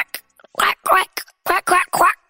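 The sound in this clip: A human voice imitates a duck, giving a run of several nasal, quacking calls in an uneven rhythm, loud and alone with brief gaps between them.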